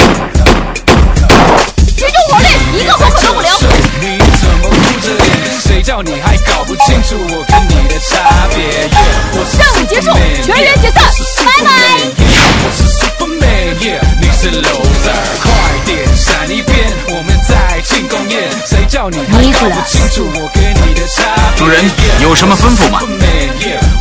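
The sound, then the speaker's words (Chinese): Trainees shooting guns, a loud, relentless stream of sharp gunshots and rapid volleys packed closely together throughout. “学员开始射击”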